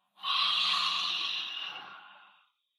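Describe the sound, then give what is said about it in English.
A single slow exhale through a wide-open mouth during a yoga breathing exercise: a soft, airy breath that starts suddenly, holds steady, then fades away over about two seconds, with no talk. “And as you exhale, open the mouth, the jaw wide, and slowly exhale out through the mouth.”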